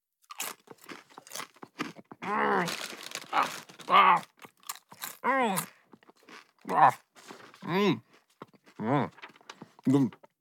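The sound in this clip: Many crisp crunches of cookies being bitten and chewed, mixed with voiced munching noises that come in short bursts and continue steadily throughout.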